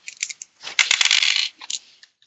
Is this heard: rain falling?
no